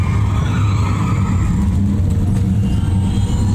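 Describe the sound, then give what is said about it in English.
Steady car engine and road rumble while driving with automated driving technology active, a continuous low drone at even loudness throughout, with no talking. “Automated driving technology verified and active.”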